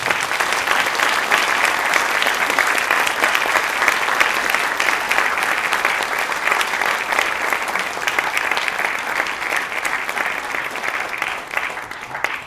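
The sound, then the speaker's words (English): Sustained, thick applause from an audience welcoming two speakers to the stage, holding steady and loud for a long stretch before easing off slightly at the end. “So let's welcome Benjamin Madley and Julia Bogany to the stage.”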